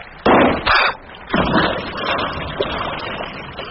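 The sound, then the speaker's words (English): Gunshot: a few sharp, loud bangs in quick succession, each with a rough, rumbling tail that fades into a lower background noise. “I heard the shot.”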